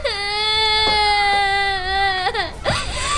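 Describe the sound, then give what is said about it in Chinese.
A child cries in a long, high, sustained wail that holds steady and loud, breaks briefly near the end, then resumes in a shorter sob. “别哭了，别哭了。”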